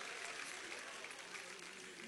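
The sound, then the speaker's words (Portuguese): An audience clapping hands during a Portuguese-language church service, a faint, continuous wash of many hands clapping with voices mixed in underneath. “Recebe, bate palmas, dá glória a Deus.”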